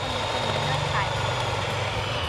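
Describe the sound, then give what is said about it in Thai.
Eggs are beaten into a white foam, making a steady, dense whirring drone that holds level and loud throughout the short stretch. “มันจะมีฟองๆขึ้นแล้ว ตีให้ขึ้นฟูขาวเลยลูกตีลงไปที่ไข่เลยลูก”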